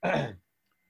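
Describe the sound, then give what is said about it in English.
A single short, raspy throat clearing from someone with a scratchy throat, one dense gravelly burst lasting under half a second, then silence. “Excuse me, I'm going to take a drink of hot coffee. My throat's raspy.”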